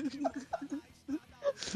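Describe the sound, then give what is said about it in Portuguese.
A man cries in short, breathy, whimpering sobs that break into uneven voiced bursts with pauses between them. “você não ouviu? O cara tá chorando”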